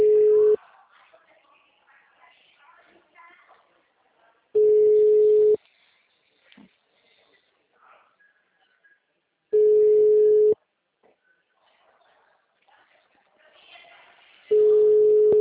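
A telephone call rings out before reaching voicemail: four steady, loud, mid-pitched ringback tones, each lasting about a second and repeating roughly every five seconds, with faint low background noise in the gaps.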